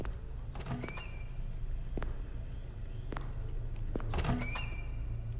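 A door opening in the horror video game Curse of Blackwater: a few creaking, clicking mechanical bursts with squeaky tonal streaks over a steady low hum, and no talking.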